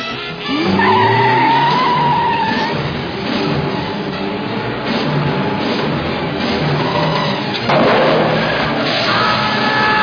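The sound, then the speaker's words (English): Tires screech as a car skids on a slippery road, a loud squeal that wavers over a continuous roar of rushing engine and road noise, with a second burst of skidding near the end. “Unfortunate accident. Nothing more treacherous than a slippery road, especially when driving in a maniacal goon vehicle.”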